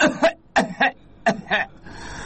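A patient coughs at the doctor's request: three pairs of short, forceful coughs with brief pauses between them, followed by quiet background.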